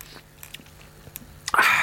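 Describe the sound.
Someone chews a mouthful of food dressed with a teaspoon of vinegar, with soft irregular bites and crunches that grow louder and denser at the end.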